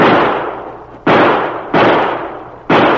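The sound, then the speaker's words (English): Gunshots in a radio drama shootout: three sharp, loud cracks at uneven intervals, each with a long decaying tail, following the fading tail of an earlier shot. “He shot the gun right out of my hand.”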